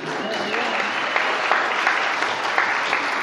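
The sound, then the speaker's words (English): Audience applause at a literary award event, a steady, dense wash of clapping that holds at an even loudness for the whole stretch, with no pauses or clear peaks. “You all can clap.”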